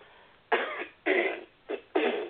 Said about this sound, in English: Please forgive me, I'll be clearing my throat a lot because I'm losing my voice.